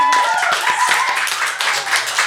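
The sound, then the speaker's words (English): Applause from an audience in a lounge, steady, lively clapping that carries on loudly for the whole stretch. “And a big round of applause from everyone in the lounge. One more time.”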